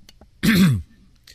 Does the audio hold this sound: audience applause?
no

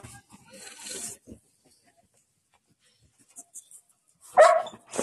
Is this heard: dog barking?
yes

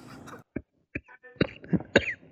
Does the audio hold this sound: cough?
yes

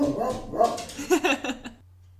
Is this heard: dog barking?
yes

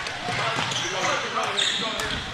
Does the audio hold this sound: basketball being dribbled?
yes

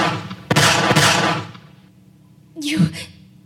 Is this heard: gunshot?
yes

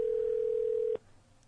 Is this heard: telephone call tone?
yes

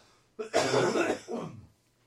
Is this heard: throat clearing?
yes

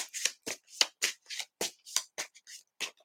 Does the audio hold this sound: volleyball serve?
no

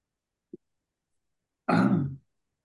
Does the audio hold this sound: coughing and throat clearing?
yes

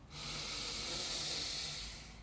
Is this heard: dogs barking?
no

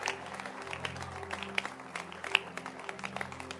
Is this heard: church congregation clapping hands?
yes

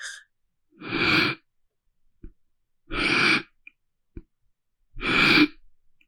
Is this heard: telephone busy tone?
no

